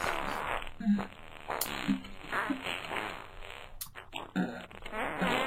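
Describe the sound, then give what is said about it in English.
Fart noises, several short, buzzy bursts with uneven rhythm and spacing, fairly loud and close together, mixed with some raspy hiss. “anyone just tuning in right now, she's hearing fart noises.”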